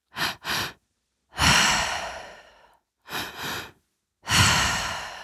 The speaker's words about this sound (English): this is the three-part breath into the belly, into the chest, and out through the mouth, long exhale. That's going to sound like this.